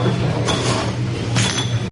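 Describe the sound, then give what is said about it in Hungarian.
Glass jars clink as apricot jam is filled into them by hand, lidded and turned over. A dense, steady clatter runs throughout, with brighter glassy clinks standing out now and then. “Láthatjuk, hogy hogyan töltik kézzel egyébként meg az üvegeket. Éppen most barackleppel kerül az üvegekbe, és rákerül a tető, és megfordítják az üvegeket.”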